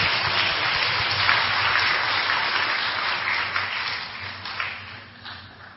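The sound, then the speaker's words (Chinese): Audience applause at a church gathering: a dense, even rush of clapping that holds steady, then thins and fades over the last couple of seconds. “我们再次掌声谢谢妈妈对我们的勉励。”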